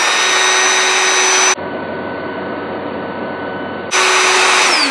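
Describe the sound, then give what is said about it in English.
An electric air inflating machine for an air mattress blows with a loud, steady roar that turns muffled and lower for a couple of seconds before the full rush of air returns. “we have this air blowing machine. This is an inflating machine. We like have an air mattress or something.”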